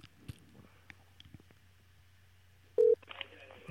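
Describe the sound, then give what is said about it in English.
A telephone number is dialed by hand. Faint scattered clicks and taps lead to a short, loud beep near the end, followed by a higher tone. “Okay, I'm going to dial.”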